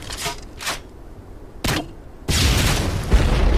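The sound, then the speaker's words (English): A recreational hunter fires a grenade launcher: three sharp, booming blasts in quick succession, then a loud, sustained roaring rumble. “Ain't nothing to launch grenades with like a grenade launcher”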